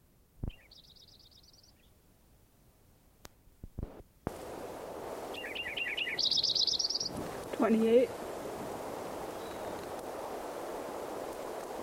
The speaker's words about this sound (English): Lincoln Sparrow number 5 again. Trying to get some more recordings of him.